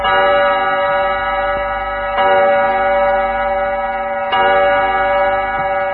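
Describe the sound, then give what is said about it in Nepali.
Chime tones from a radio studio clock time signal mark eight o'clock at night: sustained, bright, ringing tones with a few fresh strikes about two seconds apart, each swelling slightly louder before holding steady. “Time check. यति बेला हाम्रो स्टुडियोको घडीमा रातिको ठिक 8 बजेको छ।”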